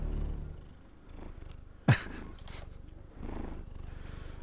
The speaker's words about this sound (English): That's our cat.